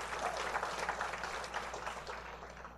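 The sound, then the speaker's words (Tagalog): Applause from an audience praising God during a sermon: steady, quiet clapping that runs throughout and fades slightly toward the end, with no voices over it. “Palakpakan po natin ang ating Panginoon.”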